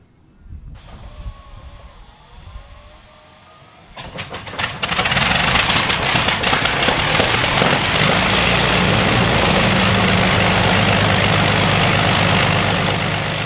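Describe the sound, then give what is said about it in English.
A Rolls-Royce Merlin aircraft engine on a Lancaster bomber starts up: a whirring starter with a wavering tone runs for a few seconds, then the engine catches with sputtering bursts and settles into a loud, steady, deep roar. “That's the sound of the Rolls-Royce Merlin engine starting up on Lincolnshire Aviation Heritage Centre's Lancaster bomber, Just Jane.”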